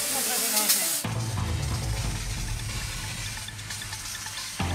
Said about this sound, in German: Wir müssen jetzt erstmal hier massiv Wasser draufhalten.